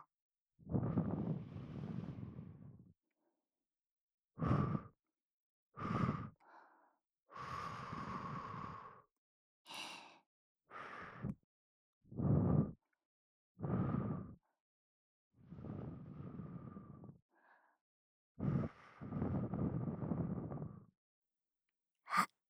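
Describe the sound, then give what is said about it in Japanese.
Many gentle puffs of breath blow into the microphone at irregular intervals, some long and airy, others short and soft, with silence between them. “じゃあふうふうしますね。せーの。”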